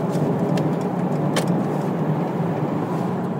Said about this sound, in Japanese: ではちょっと合流で加速を体験してみたいと思いますいきます